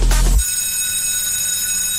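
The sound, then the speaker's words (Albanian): A bell rings in a steady, sustained tone rich in bright high overtones, holding evenly for about a second and a half after a brief low thump at the very start. “Dëgjon, është Zilja që na tërhet përsëri.”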